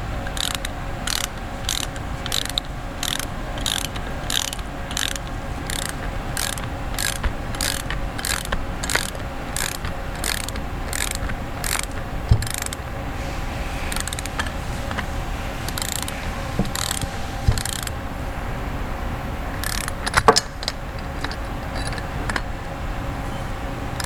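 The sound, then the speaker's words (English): A torque wrench ratchets while tightening a turbine housing clamp to 145 inch pounds, producing many crisp, evenly spaced clicks in long runs with brief pauses and an occasional louder knock. “Once I get it snug, I'll go back with this torque wrench.”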